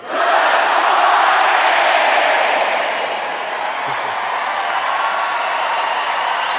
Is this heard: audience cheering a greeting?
yes